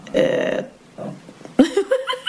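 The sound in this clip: A person lets out a drawn-out, rumbling burp, fairly loud and alone, followed after a short pause by brief talk.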